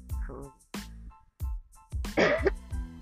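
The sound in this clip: A woman coughs after a Skittle went down the wrong way, giving a series of harsh, throaty coughs and throat-clearing bursts in uneven succession.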